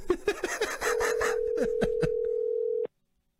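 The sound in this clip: Ringing tone of an outgoing telephone call going unanswered: one steady, mid-pitched tone of about two seconds that cuts off abruptly into silence, with short bursts of laughter before and over it.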